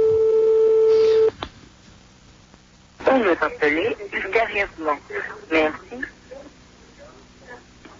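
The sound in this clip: One telephone ring tone is heard on a live radio call: a steady pitched electronic tone lasts about a second and stops abruptly. After a short quiet gap, people talk.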